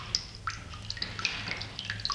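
Water drips from a leaky household tap in a series of small, sharp, high plinks at an uneven pace, faint and alone over a low steady hum.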